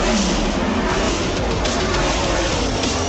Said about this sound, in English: I drive the discount tire number 12 Ford Mustang.